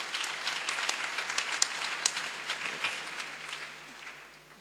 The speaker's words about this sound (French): Nous pouvons les ovationner et les accueillir.